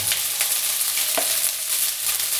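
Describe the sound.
Rice stir-frying in a pan, Chinese style, with a continuous loud sizzle and the rough scrape of stirring running through it.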